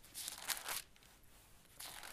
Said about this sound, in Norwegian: Hadde ikke slått opp på forhånda, vet du, da man blar litt. Skal vi se.